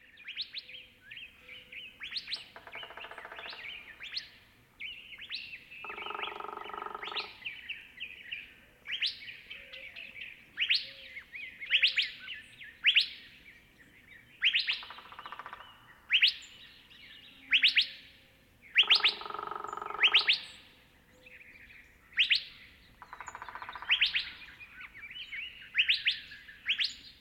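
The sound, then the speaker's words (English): Loud, piercing two-note whit-wheat calls from a bird, repeated many times in a steady series of sharp, high chirps, with other faint bird sounds and a few brief rustling bursts behind them. “I did, however, get a great recording of the telltale call of the species, a loud and piercing whit-wheat or whitty-wheat.”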